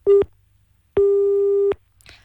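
A telephone line tone on a call that fails to connect: a short steady beep, then a longer one at the same mid pitch, followed by faint noise.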